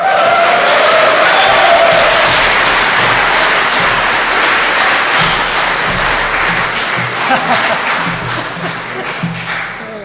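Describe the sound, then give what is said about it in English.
A big Irish welcome for a performer: loud, dense applause from an audience, mixed with cheers and hearty shouts. It holds steady for about ten seconds and then eases slightly toward the end. “Guys, please put your hands together and increase the volume.”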